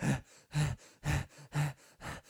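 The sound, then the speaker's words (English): Heavy breathing heard at a power plant outside Austin: faint, strongly rhythmic breaths, about five harsh, loud ones with softer breaths between them, in an even cycle. “They just heard this heavy breathing.”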